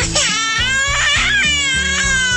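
A baby cries in a loud, high, wavering wail that keeps going with only brief catches for breath.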